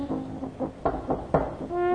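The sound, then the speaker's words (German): Knocking, a quick series of several sharp raps in an uneven rhythm, moderately loud and with no talk. “Ein Klopfen.”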